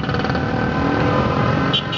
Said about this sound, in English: That's the roar of traffic in the capital of Indonesia, where 24/7 cars and motorbikes and buses spew black clouds that foul up the air.